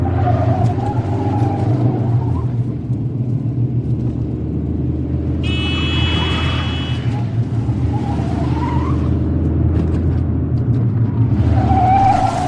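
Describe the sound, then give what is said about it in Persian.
Continuous loud engine rumble from a car driven fast at night, a deep steady drone that holds at the same level for the whole stretch with no clear breaks or passes. “شب، دریا با سرعت رانندگی میکنه.”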